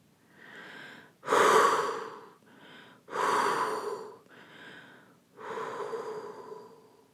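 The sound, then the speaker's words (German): Deep, slow breathing during a year-end meditation: three loud, airy breaths alternate with softer ones in a calm, even rhythm, with no talk over them. “Puh und alles ausatmen, das du verabschieden möchtest, das du in diesem Moment lassen möchtest und nicht mit rüber nimmst.”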